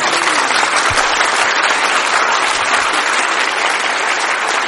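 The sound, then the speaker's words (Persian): A crowd applauds during a devotional song gathering. Dense, steady clapping stays loud and even throughout. “یه کف خوشگل بزن.”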